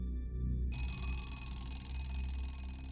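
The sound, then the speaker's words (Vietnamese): An alarm clock rings insistently in a house to wake a late sleeper, a continuous, shrill, tonal ringing that holds steady from start to end with no voices. “tiếng chuông báo thức kêu ầm ĩ mất cả nửa giờ mới lôi được Hưng”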